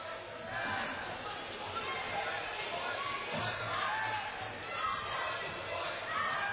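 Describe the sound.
A basketball dribbled during a girls' high school game, Edward Little against Mt. Blue, with many rapid bounces on the court. A commentator talks over the steady thumping and the crowd noise.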